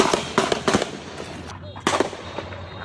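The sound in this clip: Gunshots during a shooting: a few sharp, loud cracks in quick bursts over a noisy background, with voices present.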